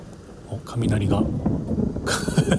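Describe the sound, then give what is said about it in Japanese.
Thunder rumbles low from dark storm clouds overhead as large raindrops begin to fall. A deep, steady rumble swells after the first half second and holds, with a brighter, hissing burst near the end. “雷が鳴ってますけれども”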